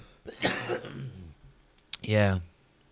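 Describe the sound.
A person coughs and clears their throat after smoking, giving a rough, voiced rasp followed by a sharp, loud cough burst.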